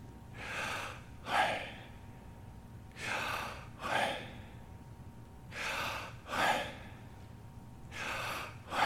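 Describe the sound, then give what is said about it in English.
Human breathing, slow and steady, with four soft inhale-and-exhale cycles evenly spaced and heard alone with no talk. “if you just quiet down and listen, every human being that is alive and breathes, just listen when you breathe.”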